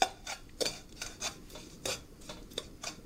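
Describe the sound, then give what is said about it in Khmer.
Sugar being stirred in a hot pan over the fire gives repeated soft scraping strokes at an uneven rhythm. The sound is quiet and there is no talk. “ខ្ទះបានដាក់នៅលើភ្លើងក្តៅហើយនាងខ្ញុំនឹងដំបូងនោះគឺនាងខ្ញុំនឹងដាក់ស្ករមកល្មមបានហើយកុំឲ្យច្រើនពេកកូរវា”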